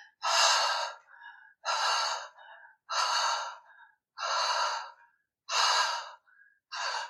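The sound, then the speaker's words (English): Fast, deliberate breathing with strong, forceful exhales. Five loud breathy bursts follow at an even rhythm, each trailed by a shorter, quieter inhale, and a sixth exhale begins as it ends. “If you start breathing a little faster, make sure you focus up more on the exhale than the inhale so you don't hyperventilate.”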